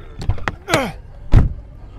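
A car door closing as people hurry into the vehicle, heard as two dull low thumps about a second apart with light rustling and shuffling between them.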